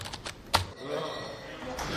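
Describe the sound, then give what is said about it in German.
Specialists type on computer keyboards in a darkened data-processing room lit only by displays: a few sharp, dry key clicks, one louder than the rest, sound beneath ongoing speech. “Die begehrten Fachkräfte bearbeiten die Tastaturen.”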